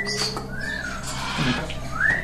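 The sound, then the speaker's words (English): A bird at an animal shelter whistles at a passerby, giving a few soft, gliding tonal whistles. The last one rises in pitch, and a steady background hum runs underneath. “Who's whistling at me?”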